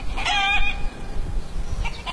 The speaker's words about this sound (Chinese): 走在陶棚村的山路上，可以听到远处农家院子里母鸡的叫声